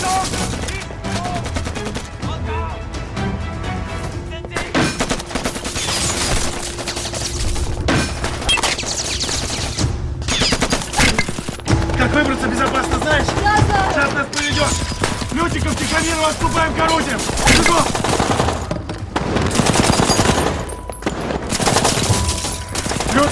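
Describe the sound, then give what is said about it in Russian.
Dense gunfire from a film battle scene, with Egorov firing down from above at Germans in a monastery courtyard as they take cover and shoot back. Rapid, overlapping shots and bursts sound continuously and loudly throughout. “Егоров стреляет сверху по немцам во дворе монастыря. Немцы прячутся и отстреливаются.”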